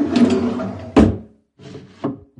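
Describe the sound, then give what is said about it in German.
A wooden drawer of a chest of drawers being pulled open: creaking, rubbing wood scrapes in a few short bursts, each with a sharper knock-like start, separated by brief silences. “Und sie geht zur Kommode und öffnet eine Schublade.”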